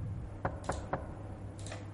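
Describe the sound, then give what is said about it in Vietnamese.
Three evenly spaced knocks on a door, soft and quick, heard over a low steady hum. “Có tiếng gõ cửa.”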